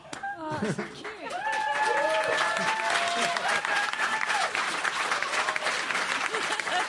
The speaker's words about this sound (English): We're all cheering.